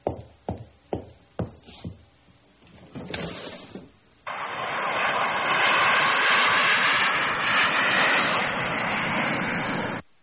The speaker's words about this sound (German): Ist denn das ein Autobus? Ein Autobus? Nein, das ist ein Flugzeug.